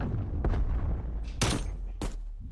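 Sniper rifle gunfire in a video game: a few sharp, cracking shots at uneven intervals over a steady low rumble of game noise.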